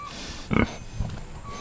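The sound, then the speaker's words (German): Grunts from black-and-white Berkshire pigs on a farm: a low, throaty grunt stands out first, followed by a softer, shorter one over faint background noise. “helfen mit, wenn Georg Fleckel die Kaninchen, Hühner und die beiden schwarz-weißen Berkshire-Schweine Blitz und Pünktchen füttert.”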